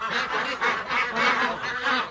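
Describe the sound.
Ducks quack and honk in a continuous run of loud nasal calls; the ducks are kept on oats, with many of them inside a house on a rainy day.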